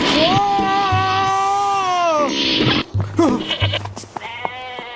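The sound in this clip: A lamb bleats as it is picked out for an offering in the Sinai desert: a long, loud, wavering, nasal bleat, then a few shorter cries after a brief gap.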